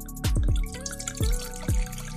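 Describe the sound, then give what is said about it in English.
Wine poured from a bottle into a glass, heard as several quiet gurgling glugs at uneven intervals, with a soft liquid splash between them and no talking. “Okay, Salt Lick Cellars. I gotta pour Morris's glass.”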